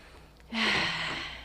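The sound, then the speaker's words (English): One deep, sharp inhale during a group breathing and arm-stretching exercise: an airy rush of breath lasting about a second, with no talk. “Let's just breathe together. Take deep breaths and lift up your arms.”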